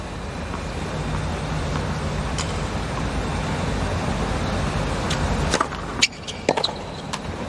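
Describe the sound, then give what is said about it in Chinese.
Tennis serve ace by American player Tommy Paul in a tournament match: a steady background hum runs until one sharp strike, followed by a few lighter quick impacts near the end. “15 love. 上来一个发球直得。”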